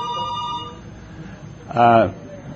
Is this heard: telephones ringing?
yes